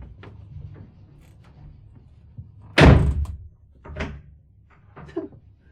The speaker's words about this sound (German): Da ist mir doch glatt die Tür aus der Hand gerutscht.